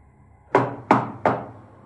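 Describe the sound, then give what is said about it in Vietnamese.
Three firm knocks sound on a bedroom door, evenly spaced and loud, each with a short hollow decay, with near silence before them. “Đang nằm yên lành, tôi nghe thấy tiếng gõ cửa phòng.”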